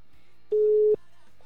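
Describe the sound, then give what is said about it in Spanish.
A single steady telephone tone sounds as a call is placed: one flat, mid-pitched beep lasting under half a second, alone over faint background hiss. “Vamos a hacer la primera llamada de la noche.”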